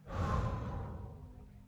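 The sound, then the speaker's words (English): A deep breath let out in one long sigh-like exhale, strongest at the start and tapering away over under two seconds. “Take a deep breath in with me now. And let it out.”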